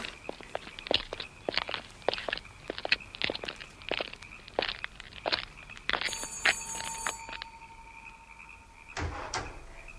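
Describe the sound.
Footsteps of people walking off together: many quick, crisp steps in an uneven rhythm, a high ringing tone partway through, then two heavier knocks near the end.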